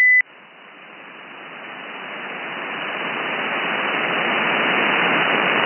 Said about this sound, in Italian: Se c'è qualcuno col beep che schiaccia mentre parli. Sì, forse c'è qualcuno che vuole entrare, avanti amico col beep.